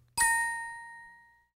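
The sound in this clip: An audio cue chime for repeating a phrase: a single bright, clear ding that strikes sharply and rings on with a smooth decay for over a second, heard alone.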